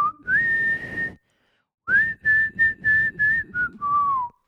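A person whistles a song, starting with a clear, bright note that slides up and holds. After a short pause, a series of brisk separate notes follows, ending on a lower sustained tone.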